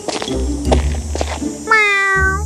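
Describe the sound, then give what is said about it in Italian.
A cat in a fairy-tale scene meows softly once, a drawn-out tonal meow that sinks slightly in pitch. Soft thuds and shuffling sounds come before it. “Fingendo di imbattersi per caso nel re che scendeva le scale, il gatto miagolò piano.”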